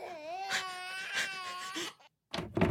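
A newborn baby cries just after birth in a delivery room, giving a few high, wavering wails in quick succession, then a brief silence before the crying starts again.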